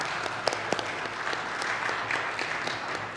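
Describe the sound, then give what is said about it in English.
A church audience applauds as a speaker comes forward, with steady, moderate clapping and a few sharper individual claps standing out early on. “So let's give a warm WCF welcome to Rebecca as she comes forward and we have a conversation together.”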